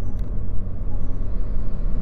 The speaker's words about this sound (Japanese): めっちゃ飛ばしてきたな。オービスがいることを分かったから通り過ぎた瞬間にぶっ飛ばしたね。